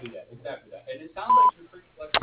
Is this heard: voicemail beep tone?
yes

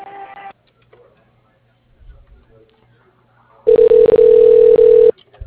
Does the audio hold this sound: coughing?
no

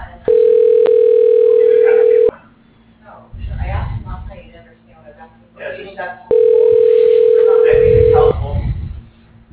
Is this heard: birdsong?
no

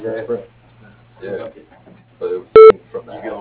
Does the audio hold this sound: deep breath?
no

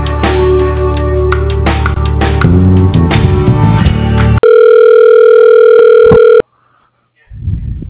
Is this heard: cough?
no

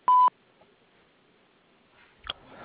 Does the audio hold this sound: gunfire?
no

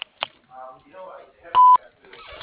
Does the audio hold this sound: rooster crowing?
no

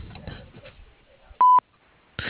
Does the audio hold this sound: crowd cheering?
no

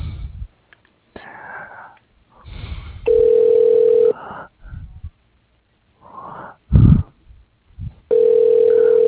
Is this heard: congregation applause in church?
no

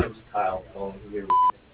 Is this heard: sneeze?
no

